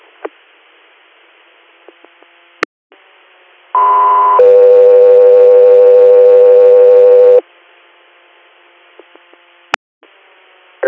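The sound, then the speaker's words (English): Alert tones on a medical transport dispatch radio channel: a short higher tone leads straight into a long, loud, steady lower tone. Faint radio hiss and sharp clicks come before and after. “stand by for tones.”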